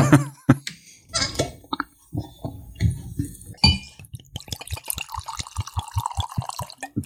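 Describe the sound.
Rare Breed bourbon whiskey being poured into a glass: a series of glugs, splashes and light glass clinks that turns into a more continuous trickling pour, with no voices.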